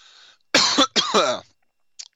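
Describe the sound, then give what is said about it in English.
A veteran host coughs and chokes on his own spit in the middle of live radio, with two harsh, loud bursts close together and then a faint short catch after a pause. “no cough button. Live radio that falls under the category of veteran radio host choking on his own spit.”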